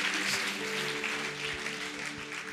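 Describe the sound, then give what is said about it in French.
Church audience applauding, a dense, even wash of clapping mixed with sustained musical tones, fairly quiet throughout. “Alléluia. Acclame Dieu pour sa vie.”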